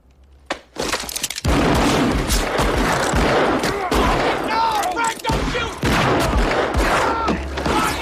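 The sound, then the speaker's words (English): Gunfire from the OK Corral gunfight scene in the film Wyatt Earp: one sharp early shot, then a dense, loud barrage of many rapid cracks and bangs that continues almost without pause. “Adam Baldwin used the gun in the gunfight at the OK Corral scene for the movie Wyatt Earp.”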